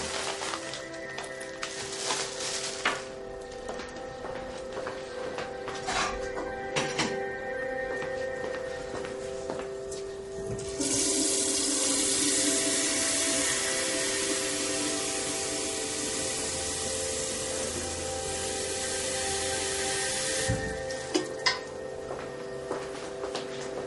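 Water runs from a tap to make tea: a steady, loud rushing hiss that starts abruptly and lasts about ten seconds, then stops, with a few light clicks and clatters before it.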